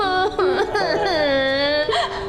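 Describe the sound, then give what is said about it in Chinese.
A person crying in whimpering, sobbing bursts, the voice wavering and bending in pitch through about two seconds of continuous, fairly loud weeping with short catches of breath. “哎，你怎么又哭了？”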